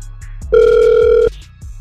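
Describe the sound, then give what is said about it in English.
Ringback tone of an outgoing telephone call being placed: one steady electronic ring tone lasting under a second, preceded by a few faint short blips. “We're going to try and call him right now.”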